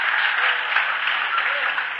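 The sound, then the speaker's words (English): Audience clapping at a stand-up comedy show, a steady, muffled wash of applause that holds at an even level throughout with no clear break. “Notice it was the guys clapping on that.”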